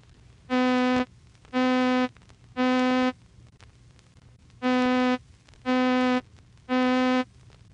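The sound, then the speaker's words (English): Electronically generated middle C with all its overtones: six identical, steady, buzzy organ-like notes, in two groups of three separated by a slightly longer pause, played alone over faint background hiss. “Middle C, with all its overtones, sounds like this.”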